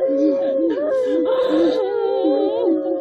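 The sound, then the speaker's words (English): A crowd of people sobbing and wailing in national mourning after a leader's death, a dense, continuous mass of overlapping, quavering cries and whimpers that rise and fall in pitch without pause. “By the way, that is real audio of people just sobbing when the old man died 10 years ago before the little fat kid took over with the bowl cut.”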